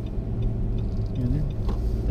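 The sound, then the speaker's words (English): Car driving over a gravel road through a construction zone with flaggers, giving a steady, loud low rumble of tires and engine that holds evenly from start to end. “Oh, hey, we got bonus gravel. With flaggers and everything.”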